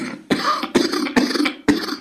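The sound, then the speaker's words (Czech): Four harsh, hoarse coughs from a man who says he is unwell, coming in a quick, uneven series with short gaps between them, loud and alone with no talking. “Omlouvám se, já jsem furt takovej nezdravý, no. Že do toho kašlu.”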